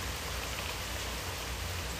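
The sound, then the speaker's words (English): Rain falling outside onto a patio, a steady, dense hiss of drops on hard surfaces that stays even and unbroken throughout, with no voices. “It's raining, so I'm sitting out here on the patio shooting the episode, bro.”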